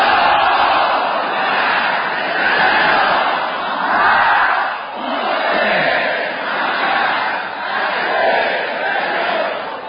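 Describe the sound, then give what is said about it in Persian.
Congregation reciting salawat in unison: many voices chant together in swelling waves that rise and ease again, loud and sustained across the whole stretch. “اگه مخالف نیستی و از اون بر موافقم هستید، یک سری از سر و صداها کم بشه یه صلوات خط بفرمایید.”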